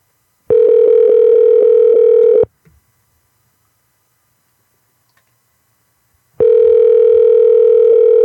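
Ringback tone of an unanswered phone call that gets forwarded: two long, steady buzzing rings of about two seconds each, separated by roughly four seconds of silence, the second running to the end.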